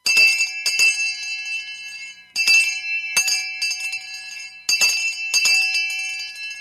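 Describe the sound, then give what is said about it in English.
A town crier's handbell clangs loudly in repeated swings, with many bright metallic strikes in uneven clusters and lingering ringing tones between them, heard alone. “our town crier has rang in that the Royal Mail has arrived for Pennyworth”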